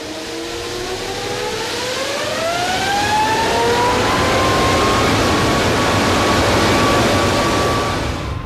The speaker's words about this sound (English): And at last the throttles are opened and the engine brought to its full, awesome power.